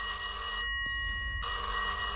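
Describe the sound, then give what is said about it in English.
A hotel-room telephone rings in two loud bursts of bright, buzzy trilling, split by a brief near-silent gap. No voices. “Now, if my phone in my hotel room rang like that, I tell you, I wouldn't be answering it.”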